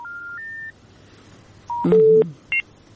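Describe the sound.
Telephone line tones sound as a listener's call-in disconnects: a steady tone that steps up in pitch, a pause, then a short tone, a louder held tone and one brief higher beep.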